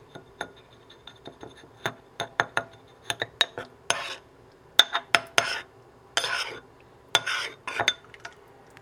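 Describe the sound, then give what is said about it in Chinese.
A spoon stirring a stock cube into a salmon, mushroom and butter rice dish in an electric rice cooker pot, giving many sharp, irregular metallic clinks and scrapes, fairly quiet and without talk. “然后你可以用一个汤匙。稍微搅拌一下，让你的高汤块融化。”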